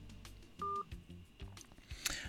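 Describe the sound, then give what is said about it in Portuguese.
A single steady telephone tone sounds on a radio call-in line as a listener's call is answered. It is a short, even beep heard among faint low sounds. “Vamos lá aqui atender este ouvinte aqui que está a ligar aqui.”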